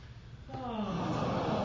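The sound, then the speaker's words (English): A deep breath drawn in during a seated breathing exercise: a soft, breathy inhalation that begins after a brief quiet moment, then swells and holds at full strength to the end. “Keep a good sitting posture. Again, breathe in. There it is. Do it one more time.”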